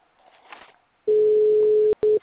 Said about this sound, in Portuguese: Tô ligando pra ela.